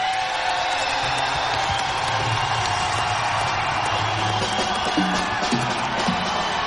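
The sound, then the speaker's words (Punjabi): An audience at a live Punjabi song performance claps and cheers, a dense, continuous wash of applause with scattered whoops that stays steady throughout. “ਇਹ ਤਾਂ ਤਾੜੀ ਹੋ ਗਈ ਗਾਣੇ ਲਈ ਇੱਕ ਆਪਣੇ ਆਪਣੇ ਪਿੰਡ ਲਈ ਵੀ ਤਾੜੀ ਮਾਰ”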